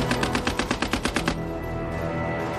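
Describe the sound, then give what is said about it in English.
An Australian Lewis gun fires one rapid, evenly spaced burst of sharp shots lasting just over a second, then stops, leaving a steady low rumble. “The Australians have one Lewis gun for every 10 men. A potent open warfare weapon that is light, compact, and can fire 600 rounds per minute.”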